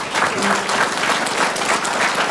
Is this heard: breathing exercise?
no